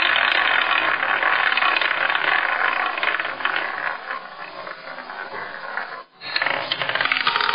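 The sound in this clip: A prize wheel spins with a steady, fast ratcheting clatter that stays loud throughout, broken by one short dip near the end before the rattling resumes.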